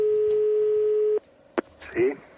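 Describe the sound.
Telephone ringing on an outgoing call: one long, steady, mid-pitched ringback tone that cuts off abruptly, followed by a sharp click and then a brief voice.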